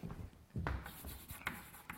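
Scratchy strokes of handwriting on a board, a few brief rasping bursts over a low steady background, with no voices.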